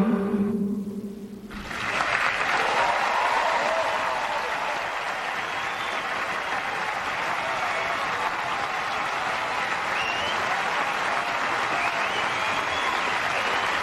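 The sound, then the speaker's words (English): Sustained audience applause takes over after a short musical tail at the start, a dense, steady roar of clapping that holds at an even level to the end. “Now, of course, that's the audience responding.”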